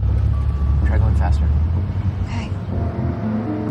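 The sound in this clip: A cream-coloured convertible speeds forward with a dark car following close behind. A steady, low engine drone runs throughout beneath a speaking voice.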